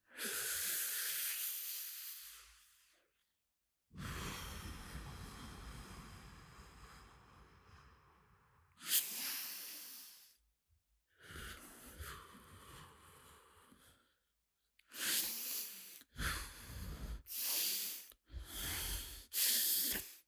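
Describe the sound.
Soft exhalations: quiet, airy hissing breaths. Several long, drawn-out breaths with pauses between them give way to a quicker run of shorter puffs toward the end.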